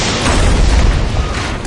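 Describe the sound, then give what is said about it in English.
Explosion effect for brimstone and fire raining down on cities: a loud, sustained rumbling boom with a heavy low roar and crackling texture throughout, no voices. “Then the Lord rained brimstone and fire on Sodom and Gomorrah, from the Lord out of the heavens.”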